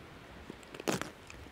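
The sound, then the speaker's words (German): A person bites into food and chews it. A few faint, crunchy bites and squishy chews come on their own, with the loudest crunch in the middle. “kann man das eigentlich auch essen? Ja klar kann man die essen. Okay, dann probiere ich mal.”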